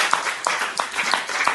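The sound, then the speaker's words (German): Church audience clapping, a short burst of rhythmic applause with sharp claps landing at a steady, even beat. “Wollen wir dem Herrn einen Applaus geben?”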